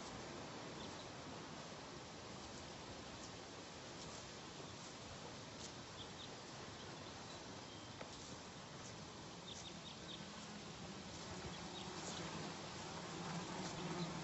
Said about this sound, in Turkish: Ormanın içine girerek uçuşan sineklerin arasında yürümeye devam etti.